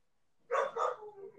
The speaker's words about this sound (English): Yeah, manly bark. Aww. He's a puppy, and he sounds like a full-grown man.